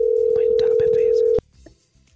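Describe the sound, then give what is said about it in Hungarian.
A telephone ringback tone on a call that goes unanswered: a steady, loud, mid-pitched tone lasting over a second beneath talking voices, then cutting off abruptly. “De kicsöngeni kicsöng, csak nem veszi fel.”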